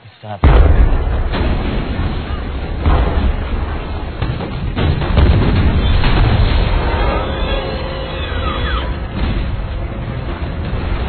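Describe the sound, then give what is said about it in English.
Heavy bomb explosions and collapsing buildings in a city center, a dense, continuous roar of booms and rumbling that starts abruptly and stays loud for the whole stretch. “The buildings are falling like dominoes! We're too late. There must be more than one bomb.”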